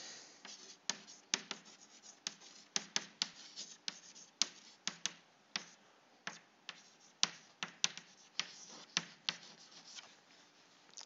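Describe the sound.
Chalk writing on a board as a rule is written out: many short, dry scratching strokes and taps in an irregular rhythm, fairly faint and heard alone without speech.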